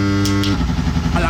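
Motorcycle engine shifting through gears. A loud, steady droning tone breaks partway through and settles into a rougher, changed pitch.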